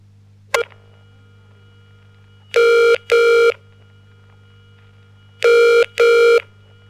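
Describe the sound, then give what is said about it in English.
Telephone ring tone: two loud double rings, each a pair of short, steady buzzing bursts, separated by a pause. A sharp click comes first, and a faint low hum runs underneath throughout. “Listen to the telephone tones and match them with the descriptions in your book.”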